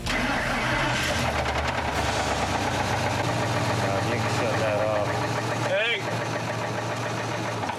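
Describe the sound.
A work truck's engine, in poor condition and brought to an auto shop, starts and runs badly. A loud, rough, knocking idle churns on steadily throughout with an uneven rattle.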